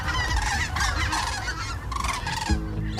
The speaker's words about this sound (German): Da fliegen die Kraniche über uns hinweg, schreibt Heike.